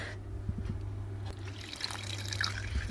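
Beer trickles steadily through a coffee filter during home brewing, a soft continuous pour with a few faint drips over a low, constant hum.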